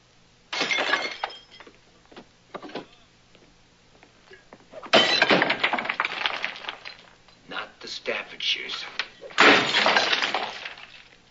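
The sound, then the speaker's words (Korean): Porcelain collection smashed in a scene from the film The War of the Roses: loud shattering crashes of breaking ceramic recur in bursts, with voices and clattering debris between them. “그러자 바바라는 그가 수집해 놓은 온갖 도자기를 깨는 것으로 대응합니다.”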